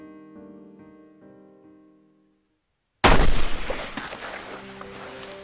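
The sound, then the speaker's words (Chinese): A single loud gunshot in a hunting scene set in the woods, from a film. Soft sustained music fades into silence before the sudden sharp blast, which leaves a long ringing decay. “这一枪就是冲着老白来的，逆着光，老白看不清开枪的是谁。不过还好，对方没有开第二枪”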